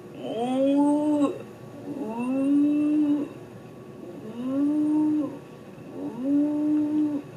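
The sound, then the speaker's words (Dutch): A newborn calf on a farm calls out four times at an even pace. Each call is a drawn-out, nasal moo that rises at the start and then holds steady, with short quiet gaps between calls. “Vannacht op de boerderij is een kalf geboren. En als je heel goed luistert, dan kun je het wel horen.”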